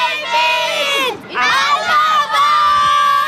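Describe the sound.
Children shouting together in unison at a fan event, a crowd of young voices calling out loudly in a few long, sustained chants with brief dips between them.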